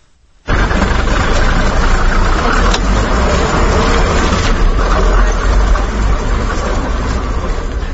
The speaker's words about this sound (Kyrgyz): Кабарчыбыз Эрнис Нурматов өзбек кыргыз үй бүлөсү айдаган автобус менен Оштун көчөлөрүн кыдырды.